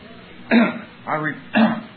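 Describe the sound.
Coughing and throat clearing from a person mid-speech: three short, harsh, fairly loud bursts, evenly spaced across two seconds, with quiet gaps between them.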